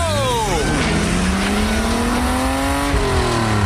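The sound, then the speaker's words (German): A race car's engine roars as it accelerates out of the pit lane after a tyre change. One loud harmonic whine climbs steadily in pitch while another engine tone falls early on, over a constant rough roar. “Achtung, Wagen Nummer 12 biegt in die Boxengasse ein. Das Auto läuft klasse.”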